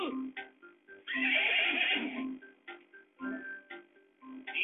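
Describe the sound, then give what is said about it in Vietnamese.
A black stallion neighs in a long, loud, high whinny, surrounded by several shorter, quieter snorting calls before and after. “Con ngựa khi mua về rồi thì lại là một con ngựa đực màu đen.”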